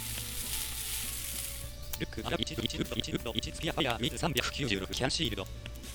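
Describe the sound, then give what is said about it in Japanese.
Fish grilling in a video game gives a steady, bright sizzling hiss for about two seconds. Then a person starts talking over the fainter cooking sound. “もうすぐ多分魚が焼き終わるかな。”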